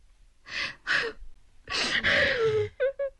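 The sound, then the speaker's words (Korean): A mother sobbing inside a crumbling house: breathy, gasping sobs in uneven bursts, then a longer wavering moan, ending with two short catching whimpers. “집안에서 어머니의 흐느낌 소리와 아버지의 성난 목소리가 들려왔다.”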